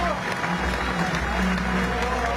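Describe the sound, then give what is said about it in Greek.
Mourners applaud at a singer's funeral at a church in Nikaia, Greece, giving a steady spatter of clapping that runs throughout, mixed with people talking. “Είναι το τελευταίο του χειροκρότημα.”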